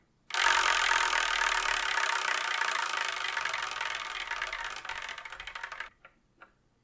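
A spinning prize wheel gives off a dense, whirring clatter of ticks for about five seconds. The ticks space out as it slows, and a couple of final clicks follow after it stops.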